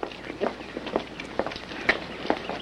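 Footsteps of people striding out of a rehearsal building, one person hurrying behind another: a brisk, fairly even series of soft steps falls about twice a second, moderately quiet over a faint background hiss.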